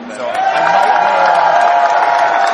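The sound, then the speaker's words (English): Audience cheering and applause at a Star Wars Celebration fan convention stage event: a dense, loud roar of clapping, whoops and shouts that holds steady and unbroken from start to finish. “Please give a big round of applause to the Executive Vice President and General Manager of Lucasfilm, an all-around badass lady, Lynn Herman.”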